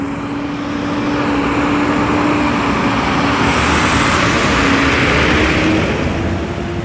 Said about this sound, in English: In case you couldn't tell from the sound, that was a garbage truck.